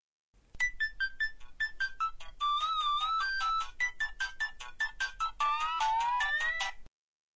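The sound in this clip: A phone rings for an incoming call with a bright electronic ringtone melody of quick chirping notes, played in several short phrases that repeat clearly and alone before stopping abruptly.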